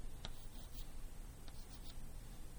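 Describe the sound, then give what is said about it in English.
Faint scratching strokes of writing on a board as a Feynman diagram is drawn, a few short scrapes scattered over quiet background noise. “if I were to draw this in terms of a Feynman diagram”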